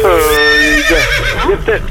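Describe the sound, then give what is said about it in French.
A person on a phone call imitates a horse's neigh. The voice gives a loud, wavering whinny that slides downward in pitch, then a few short voiced bursts. “Mais vous avez un cheval? Ben, j'allais vous dire, c'est chez vous le cheval?”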